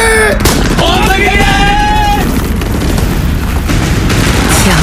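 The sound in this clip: Gunfire and booming blasts in a war drama set during a Japanese attack, with sharp bursts at the start and the end, a loud rumbling background, and shouting voices in between.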